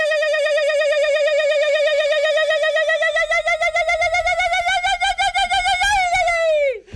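A Basque irrintzi, the traditional high-pitched yell, performed live as a short Basque-Catalan version: one loud, sustained shrill cry with a rapid shaking warble that holds steady for about six seconds, then drops in pitch and cuts off.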